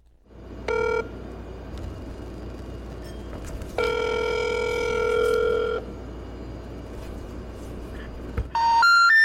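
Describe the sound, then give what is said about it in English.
Telephone tones from a call to a disconnected number: a short steady tone, then a louder sustained electronic tone lasting about two seconds, and a final tone starting at the very end, all over a constant low line hum. “The number you dialed is not in service.”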